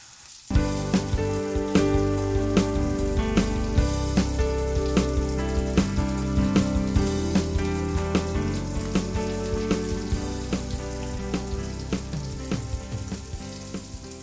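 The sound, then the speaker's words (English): Burgers sizzle as they fry in hot oil in a pan over medium heat. A dense, steady crackle with many sharp pops starts abruptly after a brief quiet moment and continues loudly to the end, with no talk. “So that oil is more or less hot now. So what I'm going to do is pop these burgers in.”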